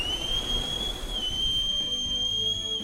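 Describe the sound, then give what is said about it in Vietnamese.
A whistle blown hard with full force gives a loud, steady, high-pitched tone that holds unbroken for nearly three seconds. “lấy còi trong khư đỉnh dồn sức thổi”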